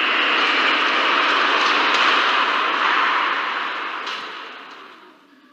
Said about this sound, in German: auf Gleis 3 fährt ein der Intercity Express nach Hannover.